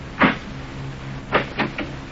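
A door being opened: a short rattle, then a quick cluster of three clicks and scrapes over a faint low hum.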